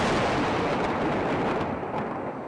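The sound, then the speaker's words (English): Israeli warplane air strikes on targets in the Gaza Strip: a loud, continuous rumbling roar of blasts that eases slightly toward the end. “Israeli warplanes attacking targets after a rocket strike by Palestinian militants on southern Israel killed one person.”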